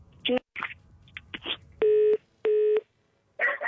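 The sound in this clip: A telephone line gives its tone after the caller hangs up: two steady, mid-pitched beeps of equal length, with scattered clicks and handling noises before them and a short burst of noise after.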